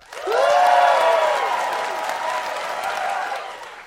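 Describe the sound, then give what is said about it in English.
A live audience bursts into applause and cheering, swelling quickly to a loud peak and then holding before slowly easing off, with voiced whoops and shouts mixed into the clapping. “So the first one he or she told us to get was applause. So one, two, three.”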